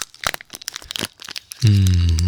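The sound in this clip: Crinkling and tearing of a chocolate bar wrapper as it is unwrapped, a quick run of sharp, irregular crackles lasting under two seconds, then giving way to a steady low hum.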